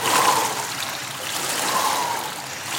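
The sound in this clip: Water sloshes and splashes as a swimmer surfaces in a swimming pool after taking off a jacket and lifting a weight from the bottom during military training. A continuous, fairly loud wash of water swells and eases, with no voices.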